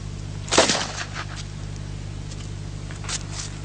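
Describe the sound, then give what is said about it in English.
A single sharp crack of a blank fired from a gun drawn out of a holster at a target, loud and abrupt with a short decaying tail, followed by a much fainter knock near the end. “Let me set this target up. I'll shoot about 8 feet away because I'm shooting blanks now.”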